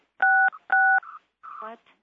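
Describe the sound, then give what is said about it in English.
Telephone keypad tones from someone pressing buttons on a phone during a board meeting call: two loud, steady dual-pitch beeps of about a quarter second each, followed by short quieter sounds and a brief voice. “Well, when somebody finished playing with the phone, it would seem proper to me that we finish.”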